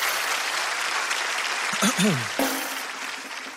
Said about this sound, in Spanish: un fuerte aplauso para comenzar con esta huevada ahora sí, para calentar el ambiente, que la cosa se ponga bonita.